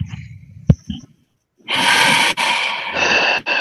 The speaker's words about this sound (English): Take a nice big fat breath, guys.